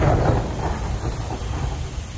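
Low rolling thunder before rain near trees at the edge of an open field, a steady broad rumble that holds its level for the whole two seconds with no clear separate claps.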